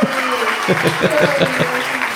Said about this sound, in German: wir gratulieren jetzt mal erst an dieser Stelle ganz herzlich mit einem satten Applaus von der Bandmaschine.